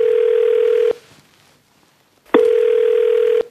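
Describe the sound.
Ringback tone of an outgoing phone call: two long, steady, mid-pitched tone bursts separated by about a second and a half of near silence. No dialling sounds are audible.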